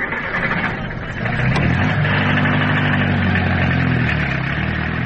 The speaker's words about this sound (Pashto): راځه ما تیار ټیکسی نیولی دی، یو ځای به سره لاړ شو.